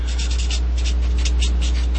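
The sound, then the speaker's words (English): Pen scratching on paper as someone jots a note during a Dungeons and Dragons session: quick, regular bursts of dry scraping strokes over a steady low hum. “Let me write this down real quick so that I do not forget.”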